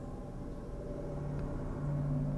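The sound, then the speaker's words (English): Road traffic on Highway 309 in Allentown, Pennsylvania, heard from high above, makes a faint, low and steady rumble that continues without clear breaks. “As you can hear from the traffic noise,”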